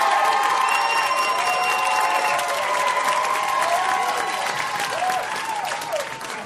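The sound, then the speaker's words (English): Crowd applause and cheering as an audience votes for a team in a contest, a dense, steady roar of clapping with shouts and whoops running through the whole stretch. “let's hear you vote for Team Gasteyer and her partner Seth, who told us about Super Mario. Let's hear it.”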